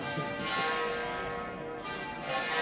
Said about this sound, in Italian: ci dobbiamo fermare un attimo, cioè, si sospende anche per rispetto verso i rituali, appena lo scampanio finisce riprende.